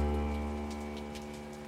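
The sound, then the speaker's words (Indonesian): Rain falling on roof tiles: a quiet, steady patter with a few sharper drops, heard under a sustained droning tonal hum. “Itu suara hujan yang jatuh di atas genting.”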